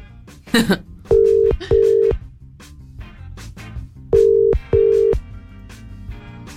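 An unanswered telephone call gives a ringback tone of four steady, mid-pitched tones in two pairs, with a pause between the pairs. Rhythmic background music plays throughout.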